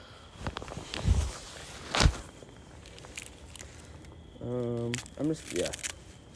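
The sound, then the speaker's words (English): Carrot tops being cut off in a fall garden: two crisp, crunchy snips sound a second apart, then quiet rustling, and later a person speaks briefly. “Let's work on the carrots. I'm gonna try cutting all the tops off.”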